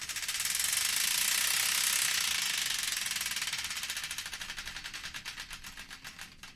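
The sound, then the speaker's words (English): Prize wheel spun on a radio show, its pointer clicking in a fast, continuous rattle that gradually slows into distinct, widening clicks as the wheel winds down. “The Wheel of Destiny is here ready to be spun, so without further ado, let's spin this and find out the song that's kicking things off, right here on the Random Number One Show here on Hull's 107 FM.”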